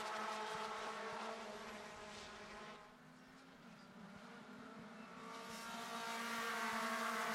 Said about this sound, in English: So this is all to play for now, as on the front straight just coming up is Carter Racing Enterprises number 03.